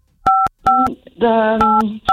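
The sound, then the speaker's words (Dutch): Telephone keypad tones sound as a number is dialed: a series of loud, steady two-note beeps of varying length, broken by short gaps, with a voice briefly overlapping the middle tones. “We gaan op dit moment jouw baas Claudia bellen.”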